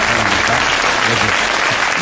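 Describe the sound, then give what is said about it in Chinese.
Enthusiastic audience applause welcoming a university professor onto a stage, a dense, loud, steady wash of clapping that continues without pause. “接下来就让我们掌声有请中国传媒大学教授赵玉平老师，掌声欢迎。”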